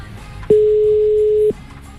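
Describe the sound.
Telephone ringing tone on a line as a radio station calls a listener: one steady, low-mid electronic beep lasting about a second, starting and stopping abruptly over quiet background.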